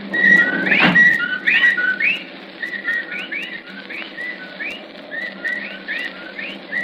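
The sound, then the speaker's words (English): Whippoorwills call at night in many repeated, slurred whistled phrases that overlap one another, with a single dull thump early on. “Listen. Well, there are the whippoorwills.”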